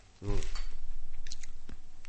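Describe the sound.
Chewing of a sweet red bean paste confection: soft, moist mastication after a brief hummed vocal sound, steady and close, with no talk.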